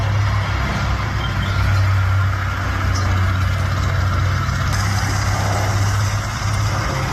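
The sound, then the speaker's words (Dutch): Low-flying military transport aircraft of the Dutch Defence forces passing over Gelderland: a loud, steady, low droning rumble that holds evenly through the whole clip, with no voices. “het is geluid van een laag overvliegend transportvliegtuig van Defensie.”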